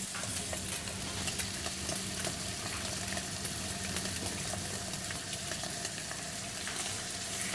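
Fish sears skin side down in plenty of oil on a hot plancha with a loud, continuous crackling sizzle and scattered small pops that stay steady throughout.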